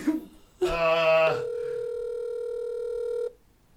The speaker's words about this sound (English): Are we getting a call into the show?